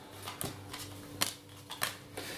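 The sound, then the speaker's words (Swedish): Playing cards being dealt for a card game make a few soft, brief snaps and flicks at irregular intervals, faint against quiet background. “så vi delar ut korten”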